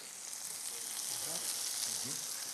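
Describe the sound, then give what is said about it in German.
Parmesan cheese sizzles and fries in a pan, giving a steady, even crackling hiss that holds at one level for the whole stretch without pause. “Und jetzt drehe ich das kurz um und brate den Parmesankäse mit.”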